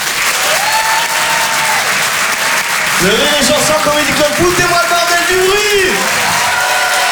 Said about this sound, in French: je vous demande de l'encourager de faire un maximum de bruit, s'il vous plaît, pour Elias Zoglami